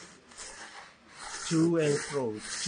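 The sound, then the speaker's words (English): Rasping to-and-fro strokes of sandpaper on wood during a carving lesson, a scratchy friction that swells louder and squeakier in the second half. “I wanted him to let me carve. I don't get to carve, I just get to sandpaper. So you take your sandpaper here?”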